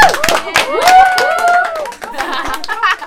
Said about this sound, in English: Give yourselves a clap, because you just